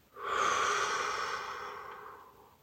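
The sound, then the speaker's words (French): Slow breath in through the nose followed by a gentle exhale in a calm evening meditation: one soft, continuous breathy sound that swells quickly and then fades away gradually over about two seconds, heard alone. “prenez une lente et courageuse inspiration par le nez et laissez l'expiration douce emporter tout doute dans la nuit tranquille.”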